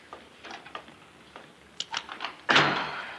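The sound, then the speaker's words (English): A door lock is fiddled with and opened: a few faint clicks and small rattling taps, then a louder thunk as the door gives way. “What's the matter with this lock? Oh, it's not the lock, it's me. There.”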